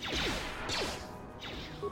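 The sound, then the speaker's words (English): Lightsaber throws in a video game: three whooshing swipes, each sweeping downward in pitch and ending in a crunchy smash as it strikes objects, spaced at roughly even intervals. “And like literally stasis building everything, force waving everything, gonna hit some stuff with some lightsaber throws.”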